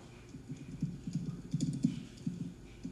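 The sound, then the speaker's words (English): Irregular typing on a computer keyboard, with quiet, uneven taps and short bursts of keystrokes over a low background. “Let me see. What do I got to type in here? Hold up.”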